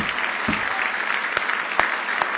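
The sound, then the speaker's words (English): A church audience claps in praise with steady, dense applause, sustained and even throughout, with a few louder individual claps standing out. “Now give the Lord another big hand clap of praise.”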